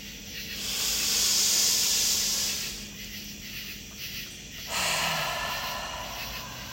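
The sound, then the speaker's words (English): A deep breath drawn in and slowly let out, as in a guided breathing exercise: two long, airy, hissing passes of breath, moderately loud and steady, with no talking. “Take a large breath in, pulling in as much air as you can, and just let it go.”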